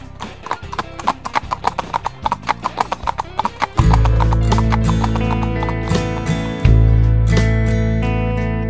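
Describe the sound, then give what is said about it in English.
A horse trots with many crisp, evenly spaced hoofbeats in a steady rhythm. Partway through, loud sustained music begins and continues under the hoofbeats. “Come along, Slowpoke. Let's trot.”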